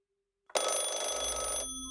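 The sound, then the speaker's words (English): A telephone bell rings for calls coming in to a house: one loud, sustained metallic ring that starts abruptly after a moment of silence and lasts about a second before cutting to a fading tail. “Then, more calls come to the house, and they don't stop.”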